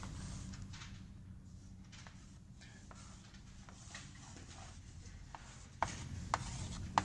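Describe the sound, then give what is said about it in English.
Faint scratchy strokes of a diagram being drawn by hand, a sketch of a motor system: soft continuous rubbing with scattered light strokes, ending in a few sharper taps. “So I guess I'll draw a simple drawing of this guy up.”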